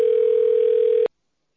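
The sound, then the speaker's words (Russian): A telephone line tone plays while a call connects to a bank employee: one steady, continuous mid-pitched beep lasting about a second, then it cuts off abruptly into silence. “Соединяюсь с сотрудником банка.”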